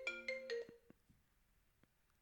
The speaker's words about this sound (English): Your phone just rang? It's my computer phone.